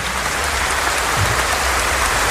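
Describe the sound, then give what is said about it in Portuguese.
A church audience applauding, the clapping blending into a steady, dense patter much like rain, even and sustained for the whole stretch with no voices standing out. “Vamos aplaudir a nossa igreja.”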